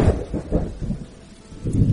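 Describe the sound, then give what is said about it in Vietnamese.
Thunder rumbles low and deep outside during a lightning storm, loud at the start, easing through the middle, then swelling again near the end, with no voices. “Một tia chớp lại lóe lên bên ngoài, lại truyền đến một tiếng sấm.”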